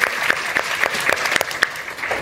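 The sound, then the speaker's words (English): Audience applause at a City Club discussion event: a dense, steady round of many hands clapping together, loud and sustained throughout with no talking over it. “I think this is the first time we're doing this here, and let's give a round of applause for that.”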